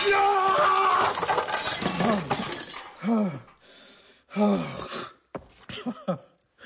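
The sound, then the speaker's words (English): Glass shatters as things are smashed up, a loud crashing burst with rattling shards at the start, followed by a few heavy gasps and groaning breaths between quieter pauses. “See? See, I've smashed up weeks' worth of work, and that's nothing. Nothing!”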